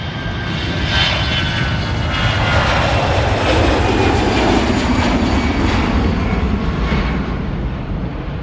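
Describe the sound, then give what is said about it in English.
Engine of a Cessna light aircraft at an airport: a loud, steady drone with a gritty roar that holds without a break throughout. “Next, we have another Cessna getting a little too close for comfort at Greensboro Airport.”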